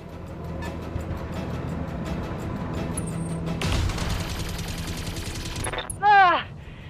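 Gunfire from weapons in a video game erupts in a dense, rapid burst in the middle over a low rumbling backdrop, followed by a brief high, warbling electronic chirp.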